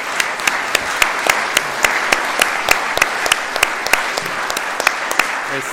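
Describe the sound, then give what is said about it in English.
Applause from a church audience, a steady patter of many distinct hand claps running through the whole clip at a fairly even level, with no talking over it. “Can we just give all of you a round of applause and the MST a round of applause?”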